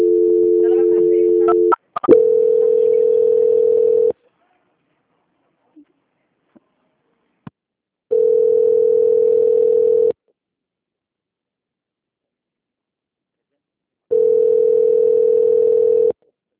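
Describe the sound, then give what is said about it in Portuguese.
Telephone tone while a bank's quality-control call is being transferred: four roughly two-second bursts of a steady tone, the first two almost back to back, the others separated by long silences holding a few faint clicks. “Ok, só um momento, por favor. Transferência.”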